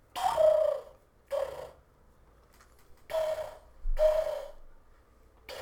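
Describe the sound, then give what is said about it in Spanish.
A person's voice imitates pigeon cooing with four breathy, throaty hoots, each a short burst with a low tonal core and separated by pauses, fairly faint. “intentando hacer sonidos de paloma. ¿Te acuerdas cuando hacíamos sonidos de paloma en la prepa, güey?”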